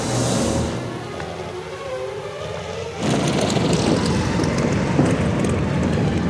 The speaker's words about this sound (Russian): Истребители стреляют по нему. Подбитый самолет теряет высоту.